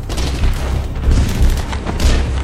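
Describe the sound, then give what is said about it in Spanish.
Enemy artillery shells exploding close by in a World War II battle, heard as loud, deep booms that roll into one another in a dense, unbroken barrage. “La artillería enemiga cae cerca de él.”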